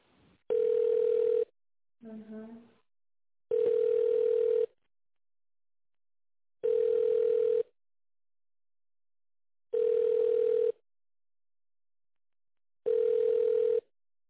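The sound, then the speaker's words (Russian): Telephone tones sound while a call is transferred: five loud, steady, mid-pitched beeps, each about a second long, spaced by roughly two-second gaps of silence. “С Андреем Анатольевичем я переключу минутку.”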